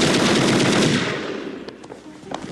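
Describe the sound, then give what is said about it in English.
Gunfire from an insane guest's gun: a loud, dense burst of rapid shots for about a second, then weakening into a few scattered cracks. “Stay in your rooms! There's an insane guest with a gun!”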